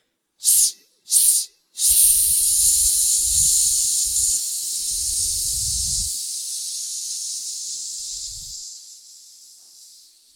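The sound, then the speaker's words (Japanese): Sharp hissing exhalations through the teeth during a breathing exercise, done with hands on the hips and the waist drawn in tight. Two short hisses come first, then one long, steady hiss that slowly fades. “吸って、腰に手を当てて腰をギュッと引き絞るようにして、吸って吐きます。”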